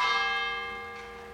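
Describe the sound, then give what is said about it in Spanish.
A church bell rings out in the morning over a quiet, damp city at dawn. One full strike is heard, and its warm, layered tone hangs and slowly fades. “El repicar de las campanas rompe el silencio húmedo de la ciudad, marcando el inicio de un nuevo día.”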